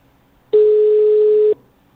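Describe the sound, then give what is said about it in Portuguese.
After a dropped call, a single steady phone tone sounds loud and alone for about one second, then cuts off into quiet. “Acho que caiu a ligação”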